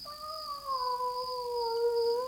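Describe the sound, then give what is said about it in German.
A strange, unfamiliar cat gives one long, drawn-out meow that holds a steady, tonal pitch for the whole stretch at moderate loudness, with no talk. “Dieses Miauen, mein Lieber, kommt nicht aus unserer Familie. Es klingt merkwürdig fremd.”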